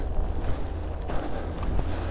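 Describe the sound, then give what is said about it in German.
Footsteps run across a frozen field, a steady patter of many quick, muffled steps over a continuous low rumble. “wird es jetzt auch nicht so viel ausmachen, wenn ich da jetzt übers Feld renne.”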